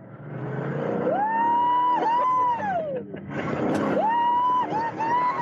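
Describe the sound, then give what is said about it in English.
Engine drone of a classic convertible hot rod driving top-down at about 100 mph in Daytona: a loud tone climbs in pitch and holds, drops away, then climbs again, under a constant rush of wind. “we got to ride in one of those classic hot rods with the top down. It was a convertible, and we got up to 100 miles an hour, and here is what it sounded like.”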